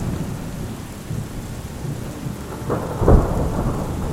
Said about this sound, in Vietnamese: Bên ngoài trời đột nhiên đổ mưa, sấm chớp đánh đì đùng.